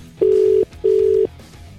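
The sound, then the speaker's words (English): A telephone line sounds after a number is dialled: two long, steady mid-pitched beeps separated by a short pause, clear and alone. “It's time to dial very carefully.”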